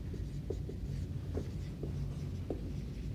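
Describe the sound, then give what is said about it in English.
Writing on a board, faint scratchy strokes with a few soft taps over a steady low background hum, no voices. “The statement, I'm gonna write this on the board, right? I'll write it word for word”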